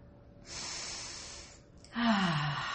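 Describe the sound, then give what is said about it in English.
A deep breath taken during a relaxation exercise: a soft, airy inhale lasting about a second, a short pause, then a louder, breathy exhale that ends in a faint voiced sigh falling in pitch. “Take a deep breath. Breathe in and breathe out.”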